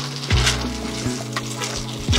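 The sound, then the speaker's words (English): Steamed basmati rice being poured and stirred into a mushroom and leek sauce in a hot pan, with steady sizzling and a few louder scraping, stirring bursts. “So we're going to add some steamed basmati rice, 2 cups of steamed basmati rice. So we just pour that in and stir it through.”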